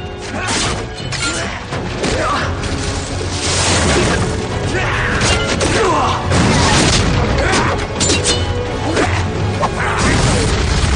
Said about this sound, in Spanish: Una nueva explosión hace que los combatientes vuelen por los aires. Unas vigas del techo vencidas por el fuego caen violentamente aplastando a Ras al Ghul